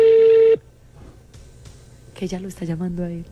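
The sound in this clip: Telephone dialing tone as a number is called: one steady electronic beep of about half a second, then near quiet, and then a person begins talking.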